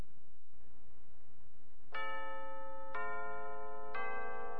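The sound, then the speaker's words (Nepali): A radio station time signal marking 8 PM: three bright, evenly spaced chime tones one second apart, each ringing on over faint background hiss. “साहिनो समय सूचक अहिले रातिको 8 बज्यो PM.”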